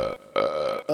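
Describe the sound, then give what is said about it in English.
Belching: a few deep, croaking burps in quick succession, loud and alone, each with a raspy, strained tone and short gaps between them. “If I could get a word in the front, in the middle of all those belches. those were ghosts.”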